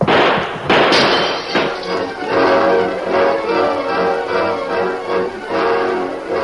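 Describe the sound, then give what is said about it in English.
Gunshots ring out at night on a ranch: a few sharp, loud bangs at the start, then sustained, dense, noisy bursts of loud commotion. “The entire ranch was aroused by the shooting.”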